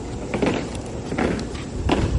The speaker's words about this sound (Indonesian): Panas terik mengiringi derap langkah pasukan pengibar bendera atau Paskibra di lapangan Wisma Indonesia, rumah dinas Duta Besar RI di Washington, D.C.